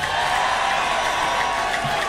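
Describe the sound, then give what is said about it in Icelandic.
Applause and cheering from an audience at a live band concert: a steady, dense roar of clapping and crowd noise that runs without a break. “Óskar Guðjónsson, gef honum gott klapp”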